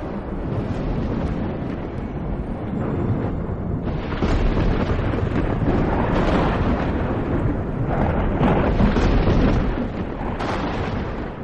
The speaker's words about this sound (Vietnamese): trên bầu trời lôi quang lóe lên, một tia sáng trắng bổ thẳng xuống gáy của Ngân